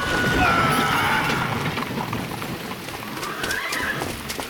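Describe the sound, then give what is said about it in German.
Horses neighing as a horse-drawn carriage rushes through London, shrill whinnies rising above a dense, clattering rumble of hooves and wheels, loud throughout. “Achtung! Die Kutsche!”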